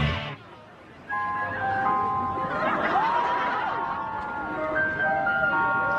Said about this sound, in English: We're in an actual ice cream van.